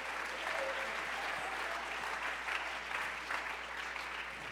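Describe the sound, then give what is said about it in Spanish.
An audience at a church service applauds with dense, steady clapping that continues evenly throughout at a fairly faint level. “Somebody give him praise. Alguien dele un fuerte aplauso.”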